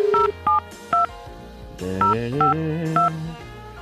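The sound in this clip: Telephone keypad dialing tones beep in two groups of three, each a short, clear, steady electronic tone, with a pause between the groups and a softer tonal sound underneath the second group.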